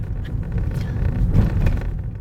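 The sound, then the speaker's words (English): A car driving toward a house on a quiet street: a steady low engine rumble with road noise, swelling slightly in loudness midway, with no talk. “I'm driving with Alejandra to the house now.”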